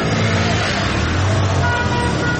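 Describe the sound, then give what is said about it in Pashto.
Cars idle and pass through a security checkpoint in Ghazni city, making a dense, steady wash of engine rumble and road noise that stays loud and even throughout. “د غزنی ښار امیر محمد خان کلا سیمه کې تلاشی مرکز ته څیرمه یو شمیر موټران ولاړ او ډیری نور له تلاشی کولو څخه وروسته تیریږي”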